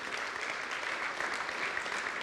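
A church audience applauds in a steady, even wash of clapping that holds at one level throughout, with no single clap standing out.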